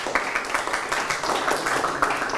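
Clapping from a group of students in a classroom after a team's score in a vocabulary guessing game: many quick, overlapping claps in a dense, steady run lasting about two and a half seconds.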